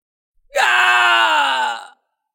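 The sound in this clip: A man screams in agony as blue lightning strikes him. It is a single loud, strained cry lasting about a second and a half, heard alone, and it dips slightly lower in pitch as it ends.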